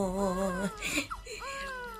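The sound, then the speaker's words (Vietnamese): An infant cries in two drawn-out wails: a steady one first, then a brief pause with soft rustling, and a second wail rising again. “Ngoan quá, ngoan quá, nín khóc rồi này.”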